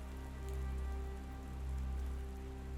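Light rain falling toward daybreak, a soft, continuous patter, quiet and even, with a low steady hum beneath it.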